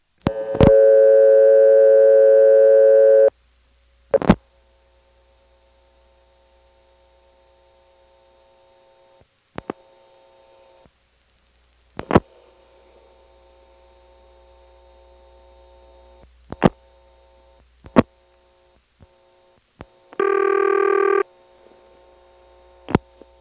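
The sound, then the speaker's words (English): Network tones and ringing from a post-pay coin phone call. A steady tone lasts about three seconds, then a low hum runs under scattered sharp clicks, and a second, shorter tone burst comes near the end. “the audible ring is answered by a solid off-hook condition, and then you hear the power ring until the recording gets around to the beginning.”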